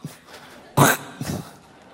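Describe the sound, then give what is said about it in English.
A voice imitates throat clearing to mock the sound of spoken German, making one loud harsh guttural burst followed by a shorter, weaker rasp, with quiet gaps around them. “the language sounds like you're trying to clear your throat. And it always sounds like,”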